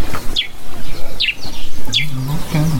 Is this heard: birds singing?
yes